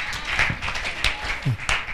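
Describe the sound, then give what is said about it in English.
An audience claps during a church service: scattered, uneven hand claps with no steady rhythm over a short stretch. “Let us give God a clap offering for success.”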